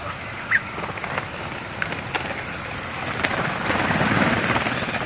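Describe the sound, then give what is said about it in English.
Thin, high flight calls of redwings migrating overhead at night, arriving in autumn from Iceland and Scandinavia. A few brief, faint sighing notes stand out over a steady hiss of background noise. “piercing sigh of night-flying redwings as they flood into Britain each autumn from Iceland and Scandinavia is often the only hint that flocks are passing overhead.”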